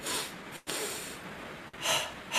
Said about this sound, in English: it's called double breathing because we do a particular thing with our breath, and it sounds like this.